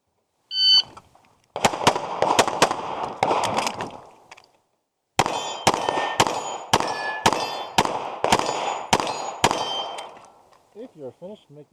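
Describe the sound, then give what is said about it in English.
Pistol shots ring out on steel mini popper targets during a drawn shooting drill with a reload, with sharp cracks and metallic clangs in a quick run, a brief pause, then a second, longer steady string of shots. “you'll hear me draw, shoot the 2 close targets on the left, do a reload moving over to the other side, and then shoot these 15-yard mini poppers”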